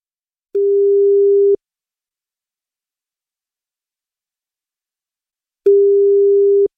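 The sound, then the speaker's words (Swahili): A telephone ringing tone sounds while someone is being called: two steady, low one-second tones about four seconds apart, alone in silence. “Shika simu. Simu yake ndio inaitana.”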